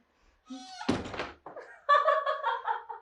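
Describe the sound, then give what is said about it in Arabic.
A door is pulled shut in a home to keep dust out of the living room, giving one dull, solid thunk; other brief sounds come after it. “اتفضلي لما اقفل الباب عشان العفار ما يدخلش الصالون.”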